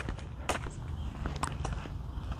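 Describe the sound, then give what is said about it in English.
Several soft footsteps from a person out walking fall at an uneven pace. They are faint and sit over a low background hiss. “So, yeah, this is really the first chance I've had to walk.”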